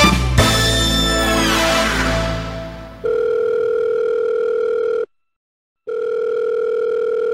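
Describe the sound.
A steady telephone dial tone while a call is being placed, a continuous even hum that cuts out briefly and resumes, preceded by a few seconds of dense, fading noise.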